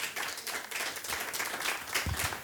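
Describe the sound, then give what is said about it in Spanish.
Church audience clapping for the Lord during a Spanish-language service: dense, continuous clapping with crisp individual hand strikes and a couple of dull low thumps near the end. “Aleluya, denle palmas al Señor. Aleluya.”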